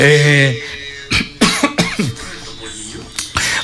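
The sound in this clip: A fit of several rough, hoarse coughs, loud and in quick bursts, comes after a short stretch of voice. One more cough follows after a pause.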